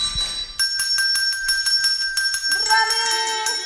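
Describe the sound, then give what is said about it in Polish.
A small bell placed on the floor rings in fast, steady jingling strikes with a bright metallic tone. It is used for listening practice with a child who has a hearing aid or implant. “połóż dzwonek na podłodze. I uwaga!”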